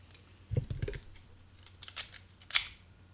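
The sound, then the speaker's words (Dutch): An electronic identity card is pushed into a computer card reader, giving a quick cluster of soft clicks and scrapes followed by one sharper click a moment later, all fairly quiet. “Dan ga ik hem weer in de kaartlijzer stoppen.”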